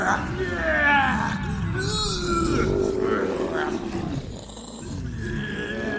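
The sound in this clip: Several people imitate dragons breathing fire with their voices, producing loud, breathy, roaring blasts that run almost continuously, dipping briefly before swelling again near the end.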